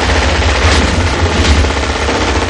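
Loud machine-gun fire from the 1988 action film Die Hard, with a gunman spraying the glass panels around the hero. The rattle is dense and continuous, without a pause for the whole stretch.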